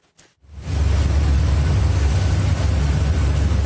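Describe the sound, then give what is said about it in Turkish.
Rocket engine explosion during a Blue Origin engine test: after a short burst, a loud, deep, roaring rumble sets in and holds steady to the end. “Milyarder iş insanı Jeff Bezos'a ait uzay taşımacılığı şirketi Blue Origin'de motor testi sırasında şiddetli patlama kameralara yansıdı.”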